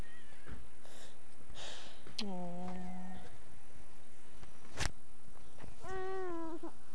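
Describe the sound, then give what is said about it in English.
A cat meowing outdoors near blueberry bushes: two distinct drawn-out meows several seconds apart, the first lower and the second higher and wavering, over a steady background hiss. “Is that our kitty? Is that our kitty?”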